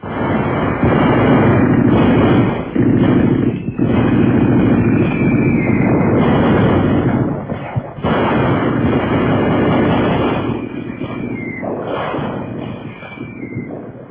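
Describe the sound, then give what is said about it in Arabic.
Artillery fire and explosions in a battle scene as a commander orders a barrage: a dense, continuous roar of rumbling blasts, loud throughout, with a few sharper bursts standing out from the din. “فتنطلق في السماء تلك الوحوش الطائرة المدمرة، أصحابها زغاريد طلقات نيران ذلك الرجل الرهيب قائد المدفعية.”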